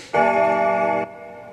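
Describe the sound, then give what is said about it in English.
A single bell rings, a steady metallic tone rich in overtones that holds for about a second, then cuts off sharply into a faint fading tail. “The bell invites me.”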